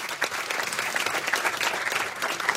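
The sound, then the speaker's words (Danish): An audience applauds an anthropology lecturer as he arrives on stage as a guest, with dense, steady clapping that holds at an even level throughout. “Skal vi lige give ham en kæmpe hånd?”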